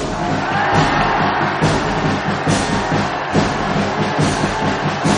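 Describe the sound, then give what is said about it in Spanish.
Crowd noise rises from a 1965 epic film scene of a public hailing Russian troops marching to the front, a dense, busy roar of many voices mixed with low rumbling and scattered sharp noises. “Un año más tarde, el Pope bendice las tropas rusas que marchan al frente. El público aclama a los soldados.”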